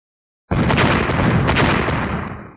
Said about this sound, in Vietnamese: Một hồi tiếng nổ mạnh liên miên